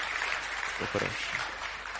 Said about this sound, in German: So if you clap nice. Wenn du klatschst, dann klatsch richtig. Clap for Jesus.